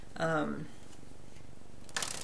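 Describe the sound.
Cards being drawn and shuffled during a card reading, heard as a short papery riffle near the end, after a brief vocal sound.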